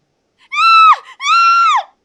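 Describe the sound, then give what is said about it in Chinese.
A woman screams twice in shrill, piercing bursts. The first cry is shorter and the second is longer, and each drops in pitch as it breaks off, with a brief silence between them. “不知道是哪个方向似乎传来了女人的尖叫声，不知道是美莹还是桃田”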